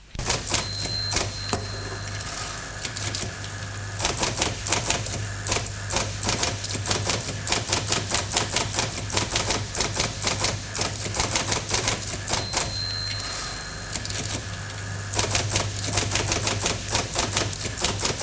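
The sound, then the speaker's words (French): Rapid typewriter keystrokes as someone types out a text: many sharp, dense clicks in an uneven but steady rhythm, loud and continuous, with no voices. “Puis, de 9 à 11, il tape à la machine le test qu'a écrit la veille Marc.”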